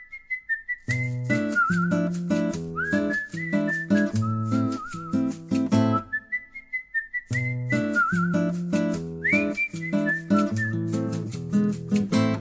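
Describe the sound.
A whistled melody takes the place of a guitar solo in a song. The clear, high tune rides over rhythmic instrumental backing, and both drop out briefly near the middle.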